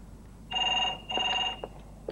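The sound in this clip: A telephone rings twice, each ring a bright, steady electronic trill lasting about half a second with a short gap between, fairly faint over a low background hiss.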